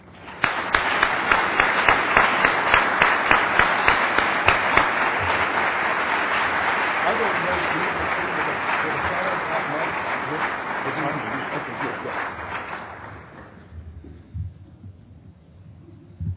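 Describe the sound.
An audience breaks into applause welcoming speaker Douglas Wilson at an event. The clapping is loud and sustained for about thirteen seconds, then fades to near silence with a couple of stray claps.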